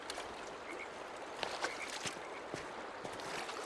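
Flowing stream water as two people wash their hands beside a stream: a steady, soft rushing wash with a few small splashes and drips breaking through.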